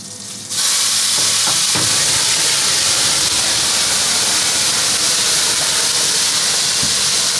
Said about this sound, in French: On commence à avoir une belle coloration. Je vais venir flamber les Saint-Jacques.